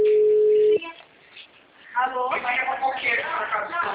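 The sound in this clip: A steady single telephone tone as a call drops, lasting under a second before cutting off, followed after a short pause by a person talking.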